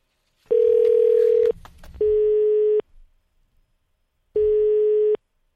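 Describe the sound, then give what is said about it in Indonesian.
Telephone ringback tone while a call is being connected: three steady mid-pitched tones, the first about a second long and the next two slightly shorter, separated by pauses, with a brief faint noise after the first tone. “langsung saja kita sambungkan saja ya teleponnya hari ini”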